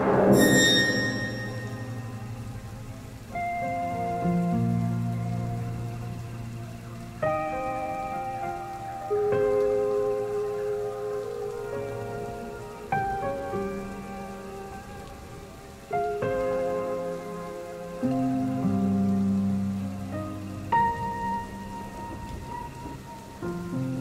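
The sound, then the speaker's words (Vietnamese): Heavy rain pours steadily outside, a continuous hiss running beneath slow, melodic music, with no talk. “Bên ngoài mưa vẫn đang trút từng cơn.”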